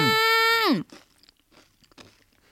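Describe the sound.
Faint crunching and chewing of purple sweet potato from Toyama, eaten together with sweet bean paste. A few soft, irregular bites follow a loud sustained tonal sound that drops away.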